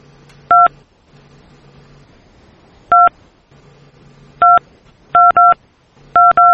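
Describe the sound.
Telephone keypad tones beep as a number is dialed to rejoin a conference call: seven short, sharp tones at irregular intervals, some in quick pairs, over a faint low hum.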